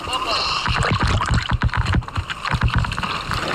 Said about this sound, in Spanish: Ese es el sonido del momento. Merece la pena, si podéis, ver las imágenes de cómo esta tortuga vuelve a nadar en aguas abiertas gracias a la ayuda de todas estas organizaciones.